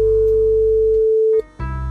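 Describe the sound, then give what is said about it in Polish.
A telephone line tone on a radio call-in, a steady, pure mid-pitched beep holding for over a second before cutting off abruptly, followed by a brief gap and a low buzzing hum. “Teraz telefon do pani Ewy.”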